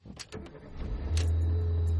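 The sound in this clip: Ride-hailing car arriving, with a few sharp clicks at first, then a low engine hum that swells in and holds steady and fairly loud to the end.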